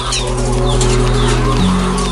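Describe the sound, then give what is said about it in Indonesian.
Laying hens on an egg farm cluck and call over one another in a busy, continuous chorus, with a steady low hum running beneath the birds. “kami sangat mengalami kerugian, Pak, untuk petelur ini ya, ayam telur”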